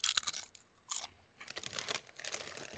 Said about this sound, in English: Oh, God, I love a potato chip. Okay. With that being said, God damn, potato chips are so delicious.